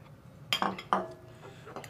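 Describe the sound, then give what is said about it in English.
Pineapple, green grapes and cherries are tipped into a mixing bowl, making two sharp clinks followed by a few fainter taps against the bowl. “We're just gonna add all these ingredients right into the mixing bowl here.”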